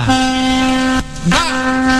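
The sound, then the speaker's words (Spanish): A truck's horn blares loud and brassy in two honks, the first long and steady, then a short break before it sounds again. “¿Te gusta que te mande el bocinazo?”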